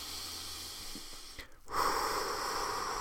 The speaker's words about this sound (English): I'm hopping in here right in the middle to take another deep breath with you.